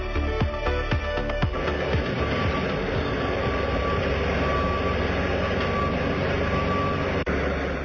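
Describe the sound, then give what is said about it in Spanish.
Night roadworks at the Concheiros roundabout, with concreting and asphalting: heavy truck engines rumble steadily, reversing beeps sound, and a few metallic clanks ring out in the first seconds. “no es que se te haya estropeado la radio ahora de repente, es que así sonaba la rueda de Concheiros esta madrugada, más o menos hasta las 4, se mantuvieron los trabajos de hormigonado, de asfaltado en esa calle.”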